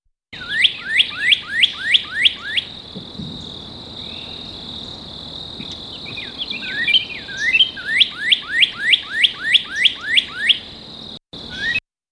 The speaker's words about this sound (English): That was the sound of a northern cardinal.